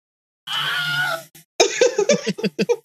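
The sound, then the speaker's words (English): A Wilhelm scream sound effect plays: one drawn-out, strained male yell of under a second, then a short pause, then a run of rapid, choppy vocal bursts. “Wilhelm. Wilhelm scream.”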